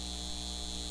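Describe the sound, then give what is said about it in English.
Steady electrical humming from data center machinery, a constant low drone with a buzzing edge that holds unchanged through the brief moment. “This is the sound of a data center taking your water and driving up your utility bills.”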